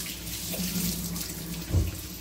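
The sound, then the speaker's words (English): Running water from a sink tap as hands are washed after handling eggs, a steady splashing flow with a brief, slightly louder gush near the end. “Now I'm going to wash my hands from the eggs. While the waffle's cooking.”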